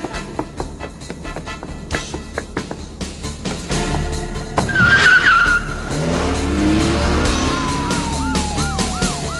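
A car speeds off, its engine roaring and tyres skidding loudly, with a rising, wavering siren-like wail toward the end.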